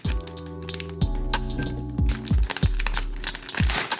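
Package being opened with a pocket knife: crinkling plastic packaging and a few sharp cracks and taps over a continuous droning tonal background with several downward-sweeping low tones.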